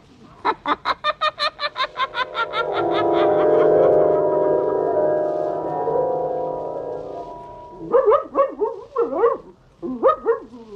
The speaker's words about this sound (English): Down, Blackie. Down, I say. Oh, if you keep squirming, I'll never get you on a leash.